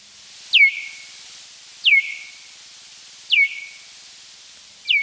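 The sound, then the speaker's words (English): Bat echolocation calls, slowed down and lowered in pitch about twenty times, sound as four evenly spaced, sharply falling chirps, each with a short tail, over a steady faint hiss. “through recording and then slowing down the echolocation sounds and lowering the pitch by some 20 times, it does sound like this.”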